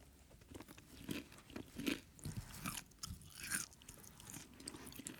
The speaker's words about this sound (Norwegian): jeg skal spise nå. Okay. Alltid litt ekkelt jeg, synes jeg, når det blir så stille og bare spiselyd. Ta den i munnen.